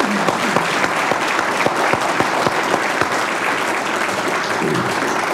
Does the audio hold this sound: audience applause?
yes